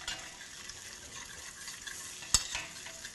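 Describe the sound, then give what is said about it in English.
Sriracha is stirred into melting butter in a pan, giving a faint, steady hiss and soft scraping, with one sharp clink near the end. “Now we stir in the sriracha.”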